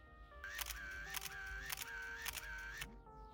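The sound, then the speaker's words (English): Camera shutter clicks as astronauts take a selfie on the Moon in a children's story. A few crisp, evenly spaced snaps sound over a soft, steady musical tone. “Finally, they planted a flag and took a selfie.”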